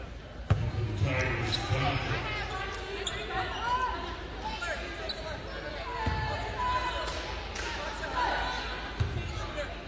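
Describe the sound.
A basketball is dribbled a few times before a free throw in a women's college game at Lincoln. Dull, low thumps sound under constant crowd noise and commentary.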